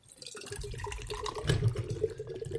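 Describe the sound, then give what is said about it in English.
A drink is poured straight upside down into a glass, giving a continuous gushing, glugging rush of liquid with a steady low burble that starts after a brief quiet moment and swells slightly midway, with no talking over it. “we're going to go ahead and open it. And I want you guys to pour it directly upside down into your glass.”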